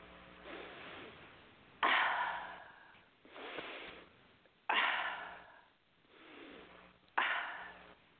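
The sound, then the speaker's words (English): Slow, deep breaths are taken during a guided meditation, soft and quiet, with three sharper inhalations that each taper off and gentler breathing between them. No one speaks. “Take a nice deep breath.”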